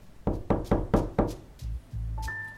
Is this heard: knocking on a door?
yes

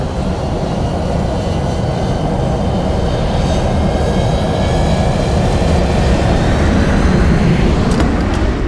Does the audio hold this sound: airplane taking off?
yes

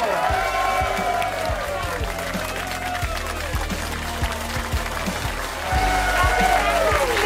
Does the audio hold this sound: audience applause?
yes

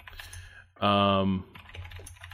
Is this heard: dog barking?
no

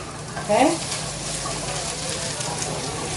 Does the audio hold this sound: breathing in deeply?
no

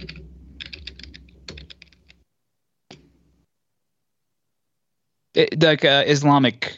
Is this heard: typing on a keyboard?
yes

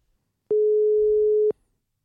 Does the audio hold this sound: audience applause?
no

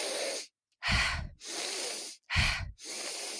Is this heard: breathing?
yes

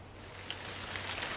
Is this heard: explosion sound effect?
no

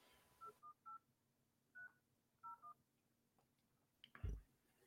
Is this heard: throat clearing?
no

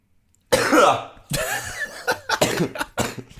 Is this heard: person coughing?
yes

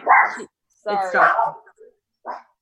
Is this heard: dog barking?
yes

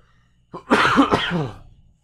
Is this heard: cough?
yes

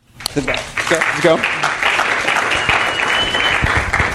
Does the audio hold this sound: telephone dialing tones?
no

